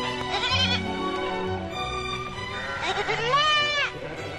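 Livestock bleating while grazing on pasture, goat- or sheep-like: several wavering, nasal bleats overlap, with one loud quavering cry toward the end.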